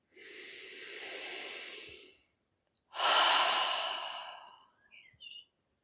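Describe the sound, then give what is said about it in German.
Slow, deep breathing during a guided relaxation exercise: a long, soft inhale, a pause, then a fuller, airy exhale. The breaths are quiet and unhurried, with faint small sounds at the end. “Noch einmal einatmen und ausatmen. Und die Schultern dabei fallen lassen. Und noch einmal einatmen und ausatmen.”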